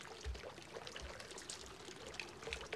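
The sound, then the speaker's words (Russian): Faint sloshing and trickling of bath water as a person lowers into it, a soft continuous watery wash with a few gentle low splashes and no voices. “Отложив книгу, погружается в воду.”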